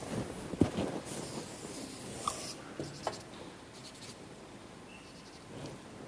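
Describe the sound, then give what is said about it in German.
Faint scratching of a circle being drawn by hand during a geometry lesson, a soft continuous scrape with a few sharper ticks. “Und jetzt zeichne ich einen Kreis.”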